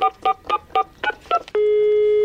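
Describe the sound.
Touch-tone keypad beeps as a telephone number is dialed, six short dual-tone beeps in an even rhythm, then a loud steady electronic line tone that holds to the end.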